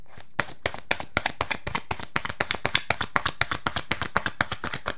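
Playing cards being shuffled and drawn make many rapid, crisp slaps and taps in a steady, fast rhythm, fairly loud and with no talk.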